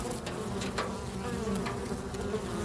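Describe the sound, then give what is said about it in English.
A swarm of bees buzzes in a dense, continuous drone of many overlapping wings. The hum stays steady and moderately loud throughout, with no voices. “That's the sound of a swarm of bees, which might not immediately suggest warmth, but we'll get to that.”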